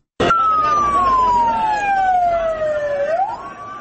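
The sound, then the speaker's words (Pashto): An ambulance siren wails loud and steady as ambulances carry wounded from an attack on a university in northwest Pakistan. Its single tone glides slowly downward for about three seconds, then swings back up near the end. “امبولانس های حامل زخمی ها راهی شفاخانه ها شدند.”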